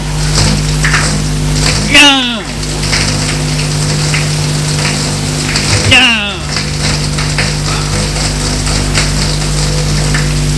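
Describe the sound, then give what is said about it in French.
A jet of boiling water pouring down onto a person, heard as a steady rushing hiss like heavy rain, broken by two brief vocal cries. “Un jet d'eau bouillante tombe sur lui.”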